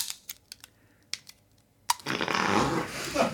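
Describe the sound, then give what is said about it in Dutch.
A bottle of beer is opened: a few small clicks and taps, then a sharp pop followed by a sustained, fairly loud fizzing hiss. “En de eerste zaak aan de orde is om een biertje open te maken.”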